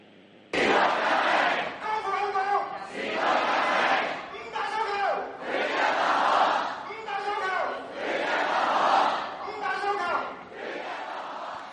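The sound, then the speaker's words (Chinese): A large crowd at a peaceful rally chants slogans in unison, with loud shouted phrases repeating in a steady rhythm and almost no pause between bursts. “咁亦都睇到咧即系都听到好多嘅市民咧都喺度咧高呼紧啲口号。咁可以听下咧即系头先即系集会高呼口号嘅一啲嘅情况咁样样嘅吓。”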